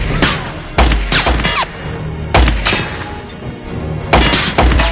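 Gunfire strikes an armored van at night, bullets ricocheting off its plating in many sharp, loud, irregular bangs and metallic cracks that come in quick clusters with brief gaps between.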